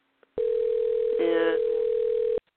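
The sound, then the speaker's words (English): A steady telephone dial tone sounds alone for about two seconds at an even, unbroken level, then cuts off abruptly. “I'm not reaching him, so we'll try dialing”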